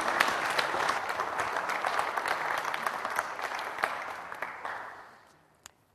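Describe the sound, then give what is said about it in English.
A church audience applauds to welcome a pastor with dense, steady clapping from many hands. The applause holds for about four seconds, then thins and fades away, with one last lone clap near the end. “Anyway, it's a privilege to have you, Pastor Joseph. Let's put our hands together. Welcome him.”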